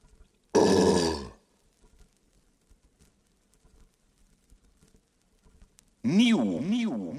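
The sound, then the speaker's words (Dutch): A big, loud, voiced burp lasts nearly a second, then silence. A second loud vocal sound follows, with a pitch that swings up and down repeatedly. “Ik moet er een grote boer van laten.”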